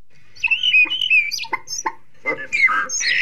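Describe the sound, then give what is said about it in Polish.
Starling song imitating other bird species, including elements of blackbird song: a varied, irregular run of clear whistles, sharp chirps and raspy, squawking notes, fairly loud and heard alone. “Tutaj słychać różne imitacje głosów innych gatunków. Na przykład mazurka błokwiczoła, trochę elementów śpiewu kosa. Tu jest fragment trzepotu skrzydeł kaczek. Także szpaki są mistrzami w Polsce w naśladowaniu głosów ptaków.”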